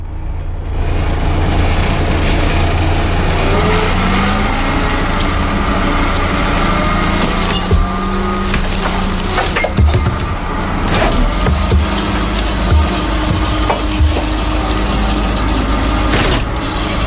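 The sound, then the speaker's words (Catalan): A garbage collection truck gives a loud, steady engine drone with a deep rumble, and creaks and squeaks from its machinery rise over it throughout. “d'aquells sons quotidians que podem escoltar cada dia, el del camió de la recollida de la brossa”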